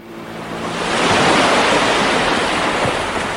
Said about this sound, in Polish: Morza szum, ptaków śpiew, jakaś jeszcze ładna muzyczka.